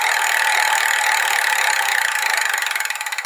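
A prize wheel spun at a live restaurant event makes a steady, bright whirring rattle of rapid clicks that spread out and slow toward the end as the wheel loses speed.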